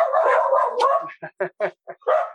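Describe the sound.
Dogs bark in a quick run of short, sharp yips, the last one longer, after a sustained whining, voiced sound.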